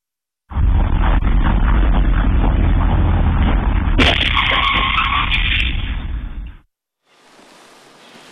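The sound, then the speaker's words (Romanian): A school bus collides with a car at a downtown intersection in a Massachusetts city and glances into a utility pole: a loud, sustained roar, a sudden harsh impact partway through, then an abrupt drop to faint hiss. “Autobuz școlar implicat în accident într-o intersecție din centrul unui oraș din Statele Unite s-a ciocnit violent cu o mașină și a ricoșat într-un stâlp de electricitate.”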